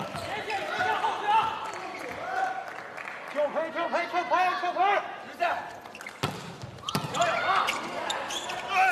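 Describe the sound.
Volleyball being served by a team captain in a match, sharp slaps of the ball near the end amid a lively hall, with commentary and crowd voices running underneath.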